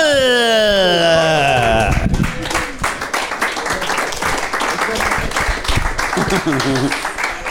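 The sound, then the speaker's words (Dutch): Studio audience applause that starts slowly on a comedy show, entering after a short burst of sliding musical tones; crisp, uneven clapping then carries on steadily, with some talk mixed in. “Het was een dieseltreintje dat we even op gang moesten trekken, het applaus, nietwaar?”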